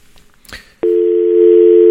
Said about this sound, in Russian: Так, скинулось у нас сейчас, такое у нас бывает иногда.